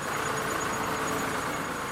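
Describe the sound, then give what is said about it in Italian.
Steady engine drone from a wheel loader with a front bucket, working at a recycling plant in Ticino that feeds the plant and loads trucks. The broad, rumbling noise holds an even level throughout, with no talk. “Questa è una paragommata, c'è una benna davanti dove carichiamo l'impianto, o i camion con il materiale.”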